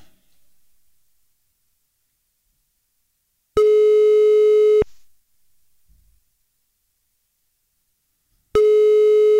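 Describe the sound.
Telephone call tones play while a radio listener is being dialled: a long, steady, mid-pitched tone with a bright buzzy edge, a few seconds of near silence, then the same tone again, cut off at the end.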